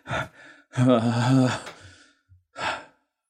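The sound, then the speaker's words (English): A voice imitates quick, panicked breathing: a sharp gasp, a longer strained voiced breath, then after a short pause another quick gasp. “is just like breathing like quickly. Like she had been like holding back and is just like”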